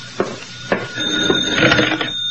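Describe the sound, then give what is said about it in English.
A telephone rings with a steady, bright metallic bell tone, moderately loud, after a few sharp knocks at the start. “And then the phone rang. That's the phone, comrade. It's for you.”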